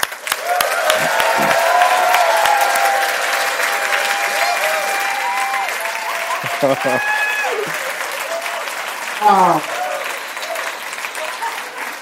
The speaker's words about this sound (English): So I would really love you guys to give a warm welcome for Dean Jackson.